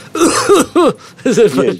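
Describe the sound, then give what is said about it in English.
A group of people cough in a few sharp, loud bursts that come in quick succession, separated by brief silences. “It's a bunch of people just coughing.”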